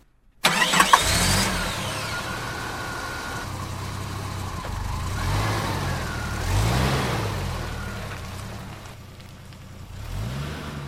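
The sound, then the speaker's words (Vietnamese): Car door shuts with a sharp thud, then the engine starts and settles into a steady mid-pitched running drone that swells briefly before easing off. “Anh nhanh chóng vào xe, đóng cửa và nổ máy lên.”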